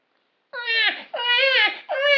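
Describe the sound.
A baby crying inside a cardboard box: three drawn-out wailing cries in close succession, loud and tonal, with no other sound around them.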